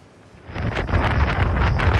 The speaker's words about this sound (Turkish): Hindistan'da kum fırtınası hayatı felç etti.